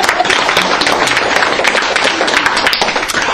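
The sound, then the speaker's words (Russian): Audience applause at a personal growth seminar, honouring the men in attendance: dense, even clapping from many hands that continues steadily at a fairly loud level throughout. “И поэтому еще раз похлопаем тем мужчинам, которые дошли до сюда.”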